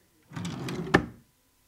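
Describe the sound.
A drawer slides open in one smooth scraping movement lasting about a second, ending with a short sharp knock as it stops, then silence.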